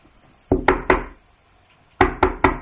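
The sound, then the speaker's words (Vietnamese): Knocking on a door from outside: two groups of three sharp, loud raps, with a clear pause between the sets. “Bách Lý Thành thì bỗng nghe bên ngoài vang lên tiếng đập cửa”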